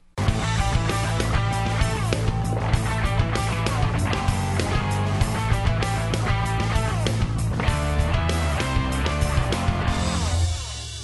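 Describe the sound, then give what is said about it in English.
Royalty-free bumper music plays as steady, loud instrumental music with a sustained low bass line and dense layered tones. It holds an even level for about ten seconds with no talk, then eases slightly at the end. “On the Podcaster's Reality Check, I play a 10-second bumper of royalty-free music at the start and the end. You hear it, it sounds like this.”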